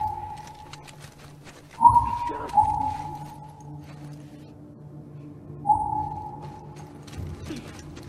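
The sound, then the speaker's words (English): A video game's listen mode scans for and locates a nearby item with a few short, sonar-like pings, each a clear steady mid-pitched tone that fades quickly, set against faint, sparse game sounds. “As we moved forward, we heard a unique sound that located a nearby item.”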